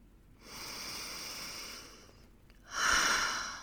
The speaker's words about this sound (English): Let's take a breath.